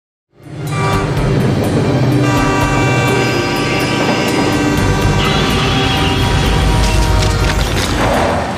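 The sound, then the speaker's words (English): A train brakes on the tracks: a loud, continuous grinding roar with steady, high, shrill metallic squeal tones layered over it, lasting about eight seconds after a sudden start. “the engineer can see something on the tracks and he tries to brake”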